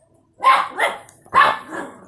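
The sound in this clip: Puppy about two months old barking, a few short, sharp yaps in quick succession, loud and alone, with no talk over them.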